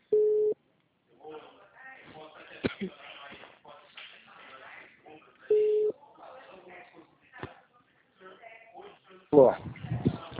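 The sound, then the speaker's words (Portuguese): A telephone rings out while placing a call to a client: two steady, evenly pitched tone bursts with a person talking in between, and a louder noise at the very end. “Vamos ligar para esse cliente.”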